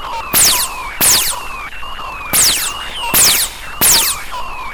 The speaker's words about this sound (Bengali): Fire, fire করুন এক্ষুনি, fire.